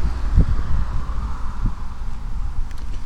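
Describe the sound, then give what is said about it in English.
Wind blowing outdoors during a mushroom hunt over damp, soft ground: a steady low rumble buffets the microphone throughout, with a few brief thumps and no talk. “The wind is now picking up.”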